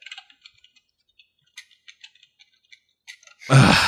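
Typing a search into a computer gives many light, irregular key clicks that tick along quietly, then a sudden loud burst of noise at the very end.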